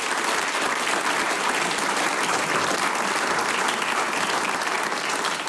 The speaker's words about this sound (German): Und ich darf jetzt den Hausherrn von Lassnitzhöhe mit einem großen Applaus zu mir auf die Sänger- und Musikantentreffenbühne bitten, den Herrn Bürgermeister Bernhard Liebmann.